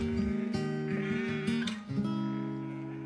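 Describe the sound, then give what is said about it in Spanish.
A flock of sheep being moved bleats in several wavering, nasal calls that overlap one another and stay at a moderate level throughout. “Otro día mueven el rebaño.”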